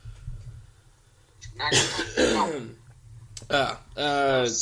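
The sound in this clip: Throat clearing from someone with lots of phlegm after being sick: a few rough, raspy bursts of moderate loudness, mixed with voiced sounds and brief talk.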